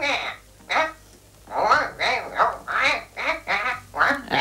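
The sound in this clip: A quacking, garbled cartoon duck voice answers the telephone in a 1949 recording. It comes as several bursts of nasal, rasping syllables, each with a short gap between.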